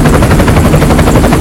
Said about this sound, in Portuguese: escuta o helicóptero aí